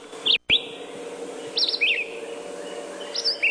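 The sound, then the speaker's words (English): Red-eyed vireo song: short, high, slurred phrases delivered in a few separated bursts, some in quick pairs, over a steady low background hiss. “That's the song of the red-eyed vireo.”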